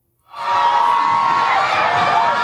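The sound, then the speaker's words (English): Crowds cheering outside the Supreme Court, gathered in protest and celebration as abortion-rights opponents cheer. The roar bursts in after a brief silence and holds as a loud, sustained wash of shouting and whoops. “Here's the scene right now of crowds gathered outside the Supreme Court in protest and celebration.”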